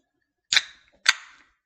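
Two sharp cracks from a pint can of 8.5% beer brewed in Middletown, New York, being opened. Each crack has a short fizzing hiss that fades quickly, with a brief pause between them.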